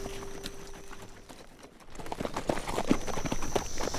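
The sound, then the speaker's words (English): Hoofbeats of a group of horses coming down a mountain pass at a fast canter, faint rhythmic clopping at first that grows louder and denser through the second half. “Reno Jim Urien and his 16 men came down out of the Granite Pass at a fast canter.”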